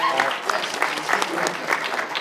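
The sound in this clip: A group giving a round of applause: dense clapping with a few louder swells, mixed with voices and cheers.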